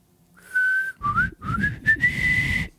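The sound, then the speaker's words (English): A person whistles a tune in a clear, high, steady tone, broken into a few short phrases with slight pitch slides, alone without talk. “I thought you were going to say work. Instead, you started whistling. I was whistling.”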